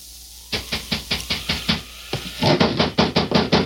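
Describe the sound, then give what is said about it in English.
Knocking at a door on a stormy, rainy night comes as two rapid series of sharp raps. A single knock separates them, and the second series is louder and more insistent. “there came a knock at the door”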